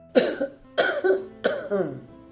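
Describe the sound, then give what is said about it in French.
A man coughs three times, each cough a sharp, loud burst with a rough, throaty tail, spaced at even intervals and heard alone without any talk. “Et il commença en ces termes, après n'avoir toussé que 3 fois au plus.”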